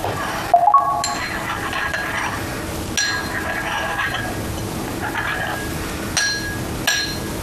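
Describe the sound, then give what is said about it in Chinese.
Clinks of a utensil against a container while a mixture is stirred just after water was poured in, a few sharp taps over a steady, soft rustling of the stirring. “水倒完了， 嗯， 搅拌一下”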